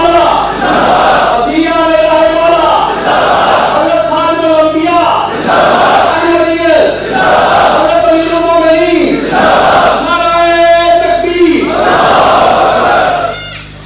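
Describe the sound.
A crowd chants a religious slogan in unison as a response, loud and steady, with the same rhythmic call repeated several times without pause.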